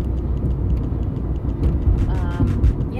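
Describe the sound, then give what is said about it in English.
A car driving on a road gives a steady low rumble of road and engine noise throughout, with a few brief higher sounds near the end. “So anyway, I'm driving on a road that's leading to a road that connects to where I'll be living next year.”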